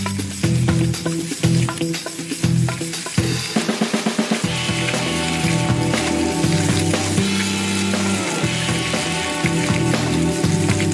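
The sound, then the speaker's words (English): Canadian bacon sizzling in a pan as its fat fries off during a cooking competition, a loud, steady crackling hiss throughout, broken a few seconds in by a run of rapid clattering taps. “Let that sizzle out. Yeah. All that fat, get that fat out.”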